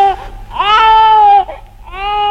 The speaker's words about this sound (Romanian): Ce-i asta? Doar n-o fi un copil... Băiat!